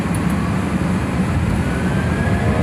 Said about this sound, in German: dann beschleunigen die beiden Triebwerke den Airbus doch ziemlich schnell. Es rumpelt ein bisschen